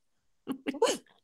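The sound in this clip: A single short human sneeze, a quick breathy build-up bursting into a sharp, loud expulsion, heard alone without talk.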